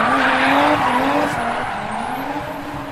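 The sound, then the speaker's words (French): A car speeds past, nearly running over an old man. Its loud engine roar mixes with squealing tires and eases slightly toward the end. “T'as failli écraser ce vieux monsieur! Wouah, c'est pas grave, c'est pas ma voiture.”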